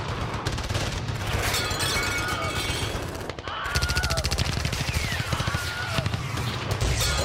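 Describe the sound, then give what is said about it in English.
Heavy gunfire with bullets flying everywhere, rapid continuous bursts like automatic weapons, loud and dense, breaking off briefly midway before resuming with sharp repeated cracks. “Whoa, there's bullets shooting all over the place.”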